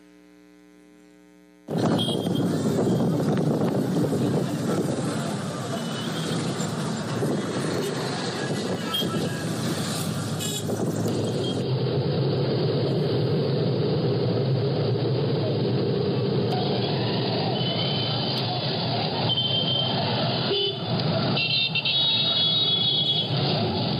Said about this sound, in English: Okay, so driving in Sierra Leone, and this is why I say thank you for praying for us. We have some clips of just what driving is like in this third world country. Let's watch this for a bit.